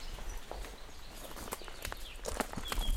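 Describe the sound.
Footsteps walk through a small park, giving a run of light, uneven steps over a steady wash of outdoor noise, with no talk.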